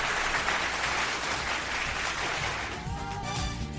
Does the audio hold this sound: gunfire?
no

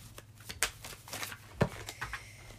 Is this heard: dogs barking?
no

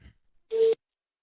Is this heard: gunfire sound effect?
no

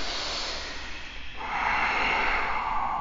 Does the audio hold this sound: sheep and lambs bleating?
no

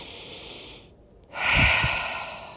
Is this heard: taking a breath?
yes

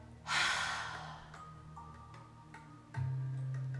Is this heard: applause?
no

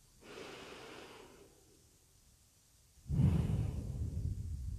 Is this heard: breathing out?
yes

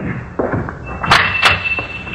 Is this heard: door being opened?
yes

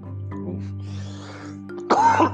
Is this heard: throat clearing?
yes

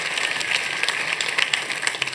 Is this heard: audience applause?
yes

